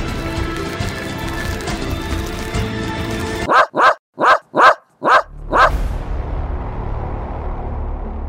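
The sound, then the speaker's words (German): A dog barks six times in quick succession at two men outside a shop, loud sharp barks cutting through a steady background noise that continues afterward. “Zuerst dachte ich, dass Beddo bellt, weil er irgendwas in dem komischen Laden gerochen oder gesehen hatte. Aber dann merkte ich sehr schnell, dass er die komischen zwei Männer anknurrte”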